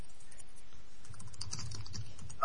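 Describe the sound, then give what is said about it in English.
Someone types fast and hard on a computer keyboard, heard through a call line that keeps cutting out. A faint, quick stream of clicks sits over low hiss, with one sharper tap near the end. “I can hear something, like noise, someone typing very furiously.”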